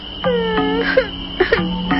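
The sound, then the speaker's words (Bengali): A baby crying late at night on an empty road: a few wavering, whimpering wails that rise and fall in pitch, with short breaks between them and no talk over them. “এত রাতে এই ফাঁকা রাস্তায় বাচ্চার কান্না কোথা থেকে?”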